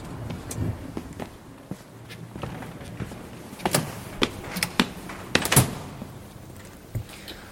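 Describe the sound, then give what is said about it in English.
Footsteps climb massive stone steps outside the National Museum Cardiff, many sharp, irregular taps and scuffs, growing denser and louder in the middle stretch. “Okay, so we've arrived walking up these big steps. I always used to love coming up these steps. Massive, gigantic steps leading up to the massive building.”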